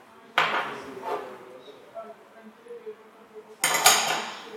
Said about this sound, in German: Diese drei Zutaten verrühre ich zusammen.